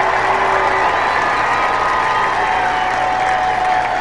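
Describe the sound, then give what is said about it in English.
Baseball fans at a Roughriders minor-league game cheering and applauding, a loud, dense wash of crowd noise held steady from start to finish without a break. “Fans getting loud.”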